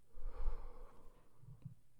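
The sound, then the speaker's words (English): Soft breathing in and out during a guided breathing exercise: two quiet, slow breaths, the first slightly longer and fuller than the second. “Breathe in. Breathe out.”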